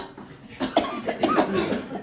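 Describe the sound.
A few short coughs from someone bent slightly at the waist during a deep-breathing exercise, moderately loud and rough, each with a voiced edge.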